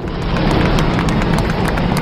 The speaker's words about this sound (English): Solid rocket booster separation confirmed. Guidance now converging.